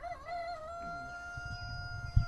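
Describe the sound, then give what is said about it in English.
A single drawn-out, tonal crow-like call comes from English and Buff Orpington chickens roosting in their coop at night. It holds a steady pitch for about two seconds, and a short low knock follows near the end. “This is where they sleep at night. Mostly chickens in here? Yeah, we have English Orpingtons. We have Buff Orpingtons.”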